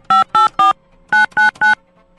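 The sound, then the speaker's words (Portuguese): Keypad tones of a telephone number being dialed, six short, clear beeps in two quick groups of three, heard alone. “Deixa eu ligar pra mais um. Deixa eu ligar aqui pra mais um.”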